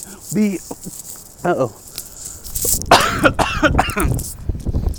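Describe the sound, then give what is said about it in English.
Coughing from someone who choked after breathing in while swallowing: a few harsh coughs and throat clearing, then a longer run of louder, ragged sputtering coughs. “Sorry about that. I got excited and breathed in while I was trying to swallow.”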